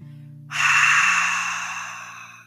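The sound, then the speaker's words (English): Open-mouth exhale during a yoga back bend: one long, breathy rush of air that starts abruptly, peaks early and then tapers off gradually, with no talk over it. “Open mouth exhale.”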